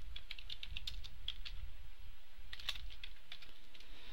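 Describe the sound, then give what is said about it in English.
Typing code on a computer keyboard: a steady run of light, crisp key clicks with occasional louder taps over a low background hum. “Let's go type in var. Let's call this bounds rect,”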